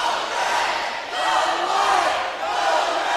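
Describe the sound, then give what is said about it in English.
A basketball crowd chants "go red, go white" during a game between the Cardinals and the Mounties. The chant is a steady, loud roar of many voices that dips briefly around the midpoint and near the end. “You can hear the go red, go white in the background.”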